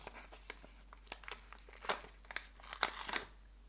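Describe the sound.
Paper wrapping is carefully peeled from a package out of a Chicago-themed travel subscription box, soft irregular crinkles and small tears, faint overall, with a few sharper rips near the middle and toward the end.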